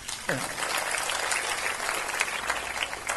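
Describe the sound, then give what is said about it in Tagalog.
Church audience applauding the intercessors: a brief voice at the start gives way to steady, dense clapping that continues for about three seconds. “Papasalamat ako sa mga intercessors natin dito laging gising. Amen. Palakpakan naman natin sila.”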